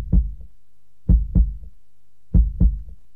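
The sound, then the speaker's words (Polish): Human heartbeat of a man in his forties or fifties: low, muffled thumps in a slow, regular rhythm, the later beats heard as clear lub-dub pairs, with nothing else in the background. “Tak bije serce Piotra Franczewskiego.”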